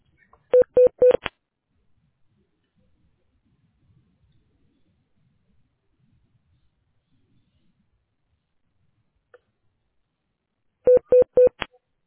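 Telephone keypad dialing tones while a call is transferred to an office administrator: a quick run of bright beeps, a long near-silent pause, then a second matching run of beeps, with no voices.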